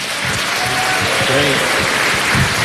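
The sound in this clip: Audience applause for the church and VCY: steady, dense clapping throughout, with voices audible over it.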